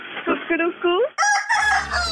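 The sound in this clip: A rooster crowing plays as a phone caller tune: a few short clucking calls, then a bright, high, drawn-out crow with a low hum entering beneath it.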